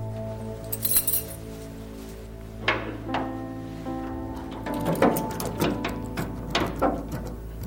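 Metallic clinks and scrapes of a key rattling in a lock fitted a week earlier that will not work, coming as a few scattered clicks and then a busier run of irregular jiggling near the end.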